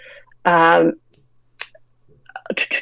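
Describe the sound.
Typing on a computer keyboard: a few faint, sharp clicks scattered after a stretch of talk, with a denser run of clicks toward the end.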